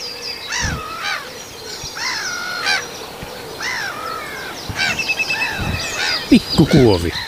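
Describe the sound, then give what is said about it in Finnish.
A black-headed gull flies over, giving several harsh, rasping cries. Other bird calls are heard through the background. “Mutta nyt menee naurulokki tässä yli.”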